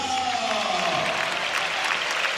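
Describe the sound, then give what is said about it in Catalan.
At a football match, spectators applaud a player getting back up after an ankle injury. The clapping forms a steady, broad wash across the crowd, with a faint voice near the start. “Aplaudeix el públic.”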